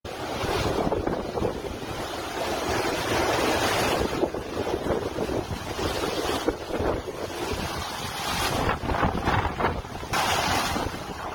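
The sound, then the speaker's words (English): Hurricane Ian's winds and storm surf pounding Fort Myers, Florida: a loud, continuous roar of wind buffeting the microphone over crashing surf, swelling in a few heavier gusts. “it is the fifth strongest hurricane ever to make landfall in the continental U.S. Here is the sound of it pounding Fort Myers earlier today.”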